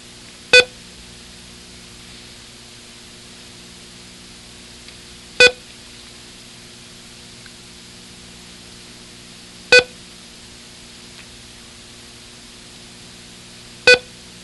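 A short electronic tone sounds the letter E. Four brief, clean beeps come evenly spaced several seconds apart against a faint hiss.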